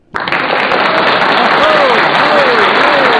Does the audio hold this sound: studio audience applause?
yes